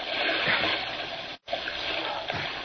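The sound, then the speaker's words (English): Continuous rushing, splashing water as people swim across to the opposite side, fairly loud and even, broken by a brief silent gap midway before it resumes. “Let's swim to the opposite side.”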